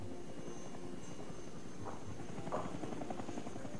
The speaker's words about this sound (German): Aus der untergehenden Sonne kamen zwei Helikopter. Ein kleiner Kommandohubschrauber und ein Transporter.